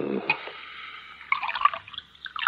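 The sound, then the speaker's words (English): Liquid poured into a glass as a drink is served, with bubbly glugs and light splashes in uneven bursts. It is faint early on and fuller in the second half. “You drink, huh? Of course. Will you pour for me?”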